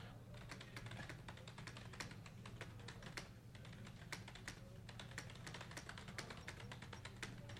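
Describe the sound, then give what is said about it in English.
Text is typed on a computer keyboard: many rapid, steady key clicks in an unbroken run, faint and without talk. “I'm going to type some text.”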